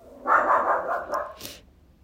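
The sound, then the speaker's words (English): A dog barks in a short, loud burst of a couple of rough barks, followed by a brief hiss and quiet, with no talking. “I'm so sorry that you guys are hearing barking right now.”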